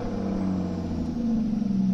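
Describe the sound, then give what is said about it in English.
An Aston Martin Rapide engine starts up, settling into a steady, deep rumble with a low droning hum that grows slightly louder partway through, with no talking. “And that is what happens when you fire up the Aston Martin.”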